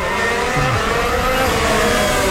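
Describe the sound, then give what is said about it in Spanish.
A racing car engine recorded onboard during a race battle for second position: a continuous, loud, steady drone with sustained harmonic tones and a brief low swoop early on. “Estamos a bordo con Charles Leclerc, quien está luchando por obtener la segunda posición.”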